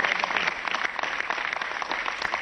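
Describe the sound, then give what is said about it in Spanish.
Clapping from an audience at a Barça supporters' celebration, dense and even, with individual hand claps running steadily for the whole stretch at a moderate level. “Per tant, un aplaudiment per tots ells. Per tant, un aplauso para todos ellos.”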